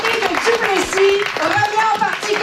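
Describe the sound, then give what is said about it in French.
Applause and clapping from Parti québécois supporters at an election night gathering in the Sept-Îles convention centre, a dense, steady patter heard under a speaking voice. “Le Parti québécois revient au pouvoir après 4 ans de gouvernance caquiste.”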